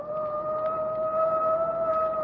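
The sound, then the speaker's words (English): A police car siren sounds during a roadside chase, a loud, steady held tone with no rise or fall, continuing unbroken without voices. “Give him the siren. That I will.”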